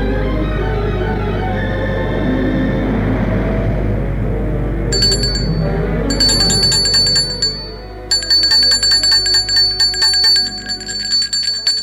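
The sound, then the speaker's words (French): A doorbell rings at a front door in three bursts, the last one long and continuous. It has a bright, rattling metallic ring over a steady low rumble. “Un après-midi, l'on sonne chez Nicolas.”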